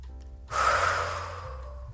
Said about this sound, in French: Si par exemple vous prenez une grande inspiration,